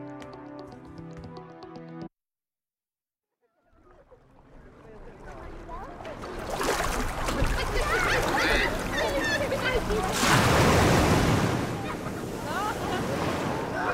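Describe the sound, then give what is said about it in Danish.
Waves washing along the shoreline of a sunny summer beach where people are bathing. After a short burst of music and a gap of silence, the surf rises into a loud, steady, rushing wash that swells near the end. “Det her er sommer og sol. Folk, der bader, og bølger, der skvulper i strandkanten.”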